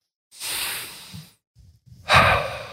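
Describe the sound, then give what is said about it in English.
Deep breaths drawn in and out through the nose during a breathing exercise: a long airy rush that fades away, a short pause, then a louder breath starting near the end. “In and out through the nose.”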